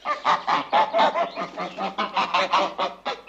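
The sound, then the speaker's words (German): A pair of geese honking loudly in a rapid, steady run of many harsh, nasal calls that crowd together, with no talk. “Dann sehe ich 2 Gänse.”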